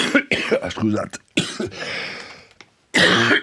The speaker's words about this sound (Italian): ho avuto un colpo di tosse